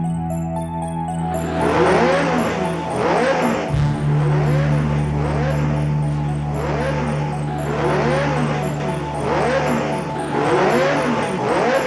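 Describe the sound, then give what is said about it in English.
Synthesized racing-car engine from Namco's 1982 arcade racing game Pole Position: repeated rising electronic engine whines in steady cycles over a buzzing drone and sustained beeping tones. “Talk at least about Pole Position, because this was another hugely influential, hugely important game, this time in the racing genre.”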